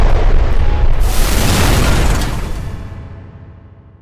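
An explosion sound effect bursts out as a loud, dense roar across the whole range, holding for about two seconds before rumbling away into a fading tail.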